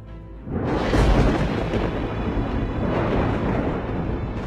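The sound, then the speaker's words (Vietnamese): A thunderbolt blast strikes a jade tablet, bursting in as a deep, heavy boom that swells into a sustained roaring rumble and holds steady to the end, loud and with no voices. “Một tia đại lôi từ trên cao được pháp trận dẫn xuống giáng thẳng vào tấm ngọc bích. Tiếng nổ đùng đùng đinh tai nhức óc.”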